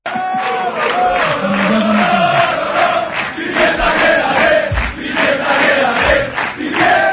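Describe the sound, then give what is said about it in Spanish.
About 500 football supporters at a match on Gran Canaria chanting in unison for their coach; a loud, rhythmic sung chant of many voices carries throughout, with a few low thuds underneath. “el público, que 500 personas te coreen el Pimienta quédate, eso tiene que llegar al alma”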